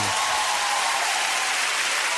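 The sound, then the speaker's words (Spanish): Audience applause fills the whole clip: dense, loud, steady clapping with no break and no voices on top. “Eso, se lo merece. Sí, ahí está. Un aplauso para Vicentino. Bravo.”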